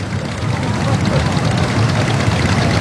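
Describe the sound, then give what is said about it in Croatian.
Engines of many small motorboats in a crowded flotilla on the sea off Split make a dense, steady, loud low rumble that drones without pause, with no single engine standing out. “morem hrli jato brodica u susret Veljku, prijatelji, znanci, poštovaoci, znatiželjnici. Na milju dvije pred Splitom more je uzavrelo.”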